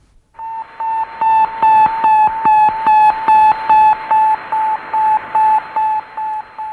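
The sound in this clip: Radio beeps from Sputnik 1, the Soviet satellite launched in 1957: many short, loud beeps on one steady mid-high pitch, repeating in a fast, even rhythm against a faint hiss.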